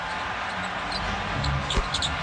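A basketball is dribbled on the court during a professional game. A few faint, dull thuds surface near the end beneath a steady roar of crowd noise.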